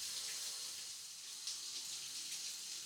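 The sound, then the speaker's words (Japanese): Water runs from a handheld shower switched from hot to cold, a soft, steady hiss of spray that continues without a break and stays quiet throughout. “そんなに体よじらせちゃったら足で挟んでいるシャワーを落としちゃうよ。お湯から水に変えてみるよ。”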